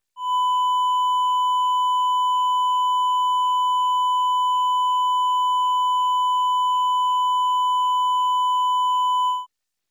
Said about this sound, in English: The 1000 Hz sine wave clipped on both positive and negative peaks sounds like this.